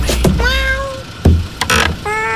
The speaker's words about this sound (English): Hey, you let some cats in.